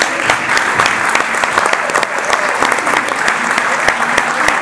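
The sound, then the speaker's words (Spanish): Big round of applause at the opening plenary of a health movement assembly: dense, sustained clapping at an even level, with crisp individual claps standing out throughout. “podemos empezar con un gran aplauso.”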